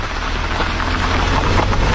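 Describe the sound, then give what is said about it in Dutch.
Heavy rain turns from a shower into a downpour as a car drives onto prison grounds. It makes a dense, steady hiss over a low rumble and stays loud throughout, with no voices. “Als we de auto het gevangenisterrein oprijden, slaat de regenbui om in een wolkbreuk.”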